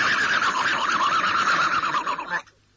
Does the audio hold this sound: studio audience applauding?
no